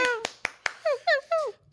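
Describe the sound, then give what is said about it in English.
Three sharp hand claps greet a guest, followed by a voice cheering in several short, bright bursts. “Applause.”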